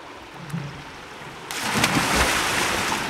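A person jumps into a tub of water and starts swimming: quiet low noise gives way to a sudden broad splash at the midpoint, then continuous sloshing and washing of water.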